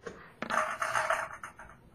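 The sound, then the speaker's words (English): Many dice rolling in a video game make a dense, rattling clatter that starts with a sharp hit and then tumbles on for over a second, gradually thinning out. “That sounded like a lot of dice.”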